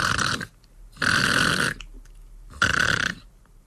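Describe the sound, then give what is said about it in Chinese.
A man's voice imitates the heavy snoring of a drunk man sleeping soundly: three rough, rasping snore bursts with long breaths between them, the second the longest. “这位也不知喝了多少酒啊，就这么多的人连吵着再喊的，他也没听见，仍然鼻息如雷，沉沉大睡。”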